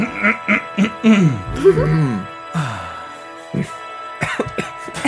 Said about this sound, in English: Clear out your throat.